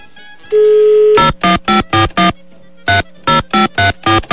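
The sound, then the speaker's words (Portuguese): Telephone dial tone followed by a quick run of keypad dialing beeps in two bursts as a call is placed to a juror. The electronic tones are loud and bright, with no talk. “Deixa eu ligar aqui, vai primeiro jurado.”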